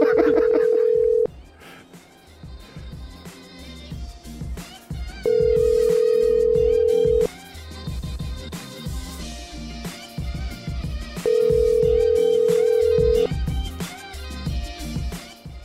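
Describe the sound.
A telephone call being placed back sounds three long, steady ringing tones, evenly spaced, with busy mixed sound filling the gaps between them.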